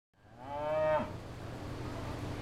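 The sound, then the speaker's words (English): A single drawn-out cow moo as cattle are led to the milking shed on a farm in early morning, loud and tonal for about a second before giving way to steady low background noise. “I think I can hear the cows being taken to the milking shed.”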